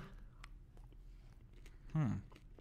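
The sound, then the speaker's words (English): Chewing on a pickle-flavoured chocolate gives faint, soft mouth sounds, then one louder, brief bite or crunch near the end. “I'd say back away while you're chewing.”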